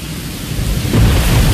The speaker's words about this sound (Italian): È il 14 settembre, piove, Londra è impastata di foglie e fango.